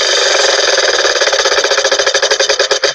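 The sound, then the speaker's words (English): Spinning prize wheel sound effect: a dense rattle of rapid ticks that gradually slows, the clicks spreading farther apart toward the end. “we're going to spin the wheel of languages one more time.”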